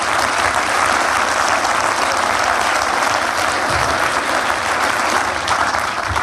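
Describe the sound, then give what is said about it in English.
Steady, dense audience applause at a film event as the producer, director and stars are welcomed; loud, even clapping continues without a break. “So please put your hands together first.”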